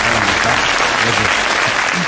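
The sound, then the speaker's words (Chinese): Loud, dense applause from an audience welcoming a guest professor from the Communication University of China, a continuous even roar of clapping with no speech on top. “接下来就让我们掌声有请中国传媒大学教授赵玉平老师，掌声欢迎。”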